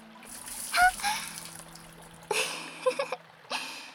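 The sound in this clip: Water poured over the body to rinse off sweat lands in a few splashing gushes, with softer trickling and dripping between them.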